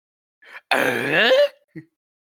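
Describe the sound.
A man gives one long groaning grunt as his own take on the Tim Allen noise. It is loud, throaty and rises in pitch toward its end, with a short vocal sound just before it and another just after.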